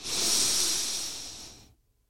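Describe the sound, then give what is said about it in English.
A deep breath drawn in through the nose during breathing exercises: one loud, airy, hissing inhale that swells quickly, then tapers off and stops, leaving silence. “One final deep breath in through the nose.”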